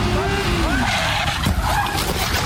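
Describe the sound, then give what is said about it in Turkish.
Tire squeal and skidding from a speeding motorcycle that collides with a car, with wavering high screeches over a steady, loud roar of vehicle noise throughout. “Motosikletini ölüme sürdü. Uzman çavuş Engin Keyvanoğlu otomobile işte böyle çarptı.”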